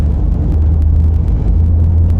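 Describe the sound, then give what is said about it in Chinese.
Steady low rumble of a car being driven, a continuous engine and road drone with faint intermittent ticks on top; no voices. “开车先把我送到吴老师那儿。”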